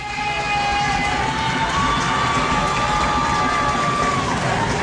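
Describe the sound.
Football fans cheer and shout in a stadium during a third-down play, making a dense, loud, sustained roar of many voices that stays steady throughout.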